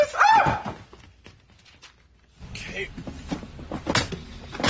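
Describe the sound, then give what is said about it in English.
Crib side latch worked while the mattress height is set, a few sharp clicks and clunks after a quiet pause, with a brief voice cry at the start. “Oh, this latch system is great.”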